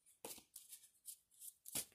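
Tarot cards being shuffled, with one card falling: a series of soft, crisp riffling bursts in quick succession, faint overall, the final burst the strongest.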